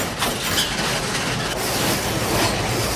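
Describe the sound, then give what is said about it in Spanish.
Mine cart rumbling along rails while dragging a wooden plank behind it, a loud, continuous metallic clatter and rattle that does not let up. “La vagoneta de sus perseguidores arrastra el tablón.”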